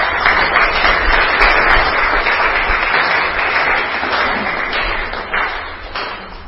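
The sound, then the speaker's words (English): An audience applauding to welcome a speaker: dense, loud, continuous clapping from many hands that keeps up steadily and eases only slightly at the end. “Let's give him a hand.”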